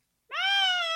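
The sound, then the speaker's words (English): A person mimics a peacock's call with a single loud, high, sustained wail, rich in harmonics and held at a nearly steady pitch for well under a second, alone. “And they had peacocks. And peacocks, when they call out, I'm going to back away from the mic for a minute. They sound like this.”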